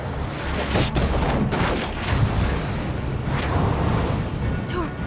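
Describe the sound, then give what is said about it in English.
A missile strikes a van and the van explodes into a fireball: a loud, sustained roar of blast noise with sharp cracks scattered through it, dense and rumbling from start to finish. “The van becomes a fireball as the missile strikes.”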